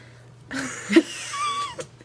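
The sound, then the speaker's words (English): A pet cat gives one short, wavering meow with brief throaty sounds around it, fairly faint over a steady low hum. “My cat says it's okay too.”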